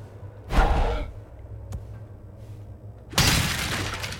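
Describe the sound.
Wooden crates are smashed in a video game. Two loud, splintering crashes are separated by a quieter stretch with a short click, and the second crash rings out longer than the first.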